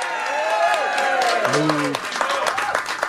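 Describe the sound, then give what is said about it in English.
Crowd applause for a guest at a Chicago White Sox fan event: strong, continuous clapping mixed with cheering voices that rise and fall across the stretch. “How about a round of applause for Daryl Ball?”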